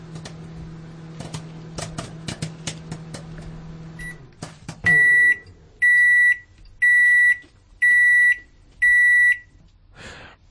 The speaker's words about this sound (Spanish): Creo que es el momento de poner a hacer unas cuantas palomitas, porque la noche pinta bien.